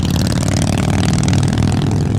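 A custom-painted motorcycle fitted with Mean Machine Cycles parts revs its engine in a loud, steady, continuous low rumble with a clattering edge, alone with no talk.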